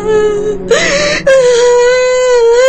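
Loud, drawn-out wailing cry held on one steady, high-pitched tone, with a brief broken, strained break in the middle before the sustained wail resumes.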